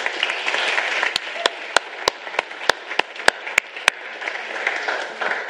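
Scattered clapping from an audience giving two people a hand as they come forward: about ten crisp single claps in a fairly steady rhythm over a low, hissy crowd background.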